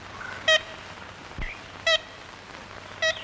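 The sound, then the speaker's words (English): Call of an ivory-billed woodpecker in a scratchy 1930s Louisiana recording: three short, nasal, evenly spaced toots, each a stack of bright harmonic tones, standing out over a steady hiss of surface noise. “It's the call of the ivory-billed woodpecker”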